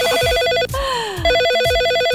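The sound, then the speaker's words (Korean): Telephone ringing tones sound while a call is placed, a repeating electronic ring pattern that is cut by a falling, gliding tone in the middle before the ringing resumes. “바로 끊고 다른 분에게 전화 한번 걸어보겠습니다.”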